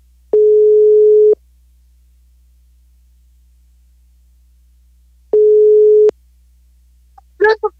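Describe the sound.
Ringback tone on a telephone call before it is answered: two steady, low-pitched beeps, each about a second long, separated by a long silence, followed by a brief burst of a voice at the very end.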